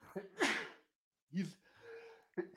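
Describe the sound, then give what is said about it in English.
A person sneezes once in a sharp, loud, breathy burst, followed by a few softer breathy vocal sounds after a brief pause. “Whoa, bless you. Ooh, sneezing.”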